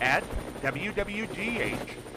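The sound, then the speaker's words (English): A news helicopter's rotor chops rhythmically as a radio effect, a fluttering thump beneath a voice talking over it. “And keep an eye out for the WWGH News Chopper flying high overhead.”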